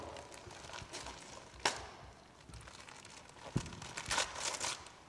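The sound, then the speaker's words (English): Wrapping paper crinkles and tears as a gift of socks is unwrapped. Quiet, irregular rustling is broken by a couple of sharp rips, with denser crackling toward the end. “Let's have a go at unwrapping. So do you want to unwrap yours first?”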